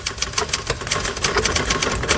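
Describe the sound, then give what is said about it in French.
Typewriter keys clattering as a typed text is produced: a fast, steady run of many sharp mechanical strikes, loud and continuous, with no voices. “Le texte définitif est prêt. Elisabeth commence à le taper à la machine.”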